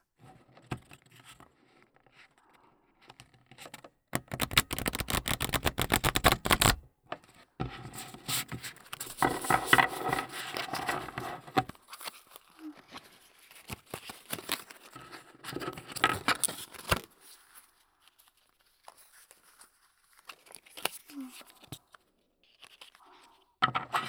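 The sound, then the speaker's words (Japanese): A flashy riffle shuffle of playing cards gives quiet, rapid papery fluttering and crackling in several bursts, with the densest run early on and softer riffling afterward. “最後はド派手なシャッフル。両耳でカードがしっかりと混ざるリフルシャッフルだよ。”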